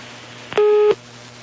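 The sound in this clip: Telephone tone after a dropped phone call: one short, steady, mid-pitched beep lasts about a third of a second. It is loud and stands clearly above a faint low hum.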